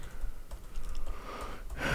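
Typing on a computer keyboard: irregular, light key clicks scattered over a steady background hiss, with no voices.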